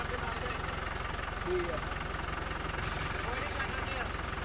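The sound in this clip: A tractor engine runs with a steady, low, rough rumble and an even, rhythmic throb that stays at one level throughout, fairly faint.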